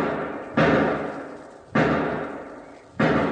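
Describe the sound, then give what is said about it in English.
Gunshots from inside a shed: three loud, sharp bangs spaced about a second apart, each followed by a long, fading, rumbling tail. “5 shots. Sounds like it's over in one of those sheds.”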